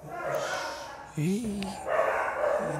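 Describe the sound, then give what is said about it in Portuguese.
Dogs fighting over territory: a few sharp yelping barks and whining cries rise through ongoing talk, which continues steadily beneath the animals. “os cachorros estão brigando.”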